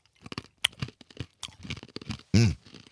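Chewing sounds as someone eats a chewy, sticky food: irregular wet smacks and soft crunching bites in quick succession, with a louder burst near the end and no talk.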